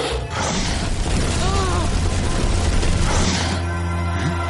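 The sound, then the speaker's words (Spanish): An ice dragon fires its magic ray in an animated adventure film, heard as a loud blast effect: a dense, roaring rush of noise that holds for several seconds with faint whistling tones inside before easing slightly at the end. “Dracon les dispara su rayo Sinex.”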